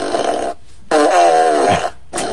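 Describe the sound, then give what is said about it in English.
Fart noises from a novelty fart machine: three buzzy, low, rasping blasts, the middle one longest and sagging in pitch at its end, with short gaps between them. “Give me the fart machine. Please, I would like to be the owner operator of the fart machine”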